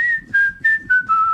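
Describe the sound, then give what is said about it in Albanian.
A person whistling a tune alone: a few clear, sustained notes separated by short breaks, with the pitch drifting gently lower from the first notes to the last. “s'kishte rënë zilja ieri dhe unë po fishkëlleja. Dhe mbaj mend se çfarë po fishkëlleja.”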